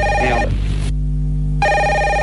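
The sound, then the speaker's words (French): A telephone rings with a bright electronic warbling tone in two bursts separated by a short pause, over a steady low hum, with no talk. “En plus, il y a votre téléphone qui sonne.”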